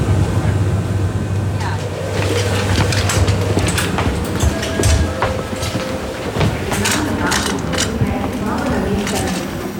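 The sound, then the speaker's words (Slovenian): A train arriving at Ljubljana's main railway station: a loud, continuous rumble with rattling mechanical clanks and clatter throughout, and brief tonal whines rising above the noise. “No, na glavno železniško postajo v Ljubljani smo prispeli ob 7:15 minut, torej 4 minutami zamude.”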